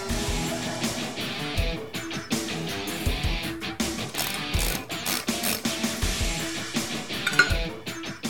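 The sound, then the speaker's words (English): Ratcheting clicks and metallic clinks as a 9/16 socket on a short extension with a breaker bar removes the three bolts holding the pulley to the harmonic balancer of a small-block engine: many rapid clicks in uneven bursts, with no talk. “Next, using a 9/16 socket and a short extension and your breaker bar, remove the three bolts that are holding the pulley onto the harmonic balancer.”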